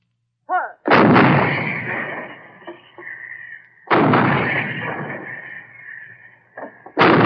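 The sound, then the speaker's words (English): 155 mm artillery guns shelling enemy installations at the front: three heavy booming shots, evenly spaced, each followed by a long rolling rumble that slowly fades, with a small click just before the first. “On the way up to the front, they walk past the 155 guns, shelling enemy installations.”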